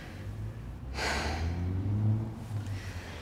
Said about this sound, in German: noch ein letztes Mal tief einatmen.